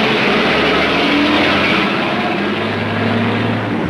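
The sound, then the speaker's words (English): Engine rumble from a sedan pulling away with a big tanker truck following: a loud, steady, low droning roar with broad road noise and no voices throughout. “The car pulls away and the big tanker truck follows.”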